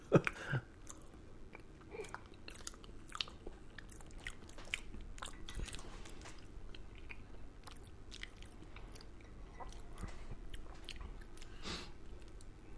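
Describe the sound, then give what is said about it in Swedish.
Chewing and biting noises from someone eating dry instant mashed potato powder by the spoonful: scattered soft crackles and clicks over a steady low hiss, with no talking. “Det här är den klassiska Felix pulvermos. Ja. Det här måste ju vara skitbra grejer. Den är också fin i... Alltså som den ser ut. Absolut. Jag tar större och större skedar.”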